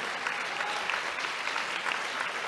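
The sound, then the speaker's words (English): Audience applause at a talk honoring a political figure, a dense, steady wash of clapping that holds at an even level throughout, with no voices on top. “my great hero, Ho Chi Minh, he's a great hero of mine, and if you clap for him, I'll be really happy”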